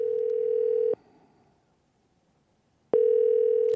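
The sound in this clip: A telephone dial tone heard while placing a live call: a steady, loud, mid-pitched hum that cuts out for about two seconds and then returns unchanged.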